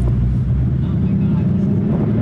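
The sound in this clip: A Ford Mustang, the ten-millionth one built, pulls away with a loud, steady, low engine rumble that stays even throughout.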